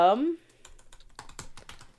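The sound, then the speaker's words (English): Typing on a computer keyboard follows a brief voice at the start, a quick run of light, uneven clicks. “Hold on, I'm going to type.”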